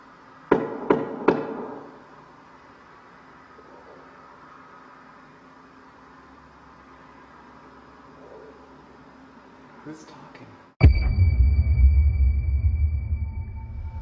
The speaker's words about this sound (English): I'm going to knock one more time, okay? See if you can copy me.